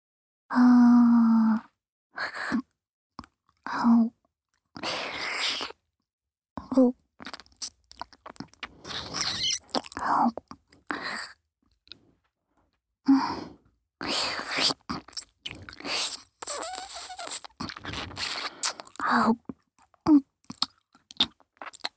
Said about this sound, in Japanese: それじゃあお耳噛んであげるね。